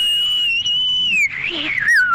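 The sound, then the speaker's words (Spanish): A person whistling a short tune, starting with a long sustained note and then dipping into a few wavering shorter notes, loud and clear with no talk over it. “Y ahí te va un pequeño chiflido. ¡Échale!”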